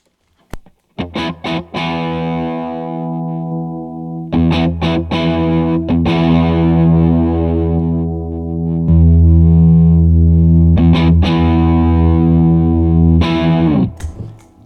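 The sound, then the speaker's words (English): Electric guitar played through a JAM custom-shop multipedal on its Eureka setting with the bass boost engaged. Heavily distorted, loud chords are struck a few times, then ring out thick and sustained with a deep low end before cutting off. “On the Eureka, there's one other switch here that is a bass boost. So in the middle position where we've been running it, there's no bass boost. Then there's a bass boost plus one and a bass boost plus two.”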